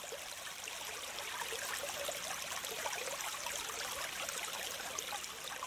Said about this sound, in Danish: Her er det nu oplagt at tage skoene af og fortsætte gåturen i åløbet, imens vandet risler omkring dine tær, og du mærker den kølige vandstrøm.